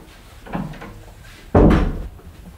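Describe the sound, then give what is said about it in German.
A bathroom door is pushed shut in a flat: a soft knock of movement comes first, then one solid thud with a short decay. “Soll ich die Tür wieder zumachen? Ach ja, machen Sie zu.”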